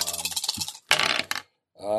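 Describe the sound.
Dice rattle and clatter on a surface during a tabletop role-playing game. A short, sharp burst of rolling sits between stretches of talk.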